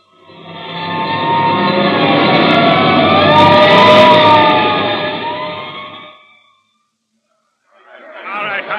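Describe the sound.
A hook and ladder fire engine siren wails on the way to a fire, loud and sustained with a wavering tone for about six seconds before cutting off, followed by a short silence and a new sound starting.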